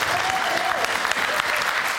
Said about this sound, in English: Let's give a round of applause one more time for Paul.